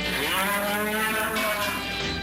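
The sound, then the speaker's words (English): Cattle moo at a bull and female sale on a ranch near Crawford, Oklahoma: one long, loud, steady bellow that fills the whole moment, with no voices. “Because when you're dealing with cattle, you want the cream of the crop.”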